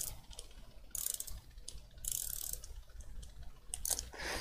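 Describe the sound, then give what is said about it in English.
Ratcheting clicks from a Park Tool 10 mm ratcheting wrench fidgeted with in hand: faint, quick bursts of dry mechanical clicking, in uneven spurts with short gaps between them. “If you can hear that, I'm playing with the park tool ratcheting 10 millimeter because I'm fidgety.”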